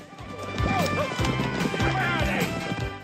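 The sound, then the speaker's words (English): Hoofbeats of a horse driven hard along a narrow, shallow stream, kicking up water, with a clip-clop rhythm and a neigh-like whinny over a rumbling background. “driving his horse hard and kicking up water behind him.”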